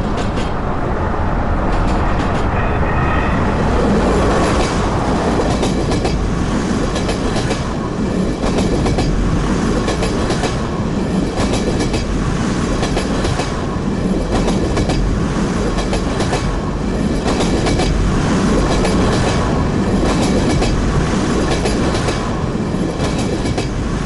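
A passing train rumbles loudly and continuously, with the rhythmic clickety-clack of wheels on rails running steadily throughout and no voices heard.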